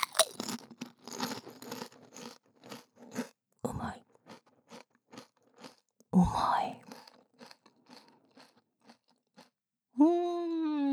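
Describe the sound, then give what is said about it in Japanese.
A person eats food, with many crisp crunches and chews in an irregular rhythm, mostly quiet with a few louder bites. A voice speaks briefly at the end. “リアルに食べてる”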